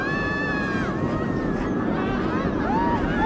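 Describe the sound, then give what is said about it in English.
A small roller coaster ride starring Wile E. Coyote and Road Runner gives a steady, loud rumble with high wavering squeals sliding up and down above it, running without a break. “It is the ride starring Wile E. Coyote and Roadrunner, and you might be able to hear it right now. It is a small roller coaster.”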